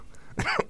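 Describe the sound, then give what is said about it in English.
A throat-clearing cough, someone hacking at a frog in the throat, comes as short, harsh bursts: a longer rasping cough followed by a sharper final burst. “No, just got a frog cough. In your throat? Yeah, a frog in my throat.”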